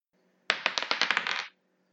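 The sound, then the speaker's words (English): Dice rolled for a game of D&D, a quick rattling clatter of many sharp clicks packed into about one second, heard alone and stopping abruptly. “I don't have my dice. I literally have three sets right next to me. Apparently this one doesn't like me too much.”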